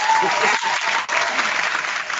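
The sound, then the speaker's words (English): Studio audience applause in reaction to a joke, a thick, sustained clatter of many hands that stays even and loud from start to end. “Actually, we recorded, we muted the studio audience during this conversation, but we did record their reaction to your joke.”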